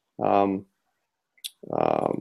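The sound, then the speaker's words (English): The cap of a Sailor fountain pen with a 14 karat nib snaps onto its back end with a single sharp click. A man speaks just before and after the snap. “The cap snaps onto the back end, which is really kind of a neat fixture.”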